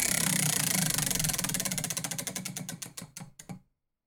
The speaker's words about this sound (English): We're going to get into the draft order here and we're going to spin the wheel. As always, our guest gets 1 extra slot on the wheel and everybody else has 3. And here we go. Let's get it a roll.